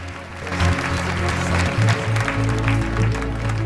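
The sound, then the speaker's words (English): Applause from a group of people: dense, steady clapping that carries on throughout at a fairly loud level. “leads the applause.”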